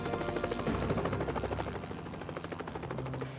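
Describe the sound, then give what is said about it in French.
Helicopters flying methodically over a search area of woods and marshes, their rotors making a fairly faint, steady rhythmic chop that continues without a break and with no voices. “Des hélicoptères survolèrent méthodiquement la zone, mais on ne trouva rien.”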